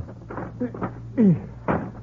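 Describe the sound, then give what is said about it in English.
A window is pushed open with a few knocks and bumps, then a loud squeak that falls in pitch as the frame slides, and a final thud. “Will you help me open this window? Oh, sure.”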